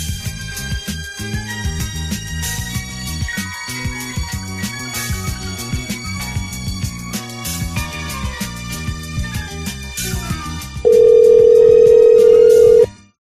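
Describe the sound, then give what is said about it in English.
A steady telephone line tone sounds while someone calls a McDonald's restaurant in Hawaii. It comes loud and unbroken for about two seconds near the end, after a long stretch of music. “Let's try to call that Hawaiian McDonald's again.”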